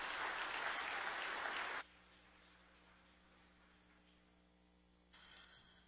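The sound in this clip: Audience applause welcoming a speaker at a morning gathering: a dense burst of clapping for about two seconds that cuts off abruptly, leaving only a low, quiet hum.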